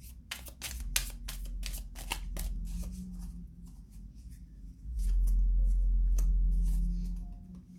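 Tarot cards being shuffled, a dense run of crisp papery clicks and flutters over the first few seconds, then sparser soft rustling while a low steady rumble swells beneath in the second half.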